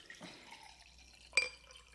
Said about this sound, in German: Das schöne Wassergeräusch.